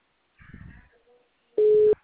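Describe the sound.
A telephone ringing with no answer, heard as one steady, loud ringback tone burst lasting about a third of a second, after a short muffled noise.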